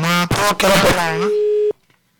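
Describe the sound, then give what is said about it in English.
A dropped telephone call: a voice talks, a steady electronic tone sounds for about half a second, and then the line cuts abruptly to near silence. “We lost the call. You can try again.”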